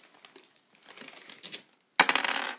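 Dice rolling on a table during a tabletop role-playing game: a few soft clicks and rattles, then a sharp clatter followed by a quick run of tumbling knocks.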